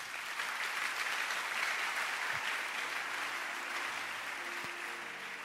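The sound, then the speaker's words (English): Audience applause, a continuous wash of many hands clapping at an even, fairly soft level, with no break from start to finish. “Clap your hands for the doctor.”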